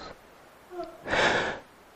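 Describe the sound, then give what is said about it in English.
A yawn from someone during a sermon: a brief, breathy exhale of about half a second, preceded by a couple of faint voiced murmurs, quiet overall. “Was that a yawn I just heard?”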